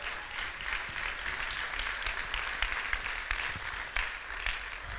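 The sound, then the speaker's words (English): An audience at a worship service claps in praise, a faint, dense and even patter of many hands that continues without a break. “Somebody give the Lord a big hand clap of praise.”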